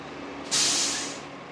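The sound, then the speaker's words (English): A cement truck pours concrete into an unfinished driveway at a new-home construction site in Phoenix, heard as a sudden loud, rushing hiss like spray that bursts in and slowly fades over about a second. “A cement truck is pouring its payload into an unfinished driveway at Gordon Estates.”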